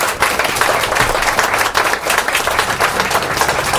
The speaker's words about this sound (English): you want to applaud in studio